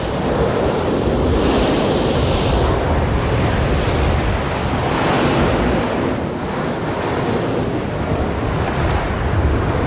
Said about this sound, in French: On croirait le bruit de la mer, mais c'est le bruit de la terre. C'est un gouffre énorme.